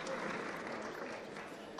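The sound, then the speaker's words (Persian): An audience applauds at a talk with faint, steady clapping that lasts under two seconds without a break. “خودتون هم تشویق کنین.”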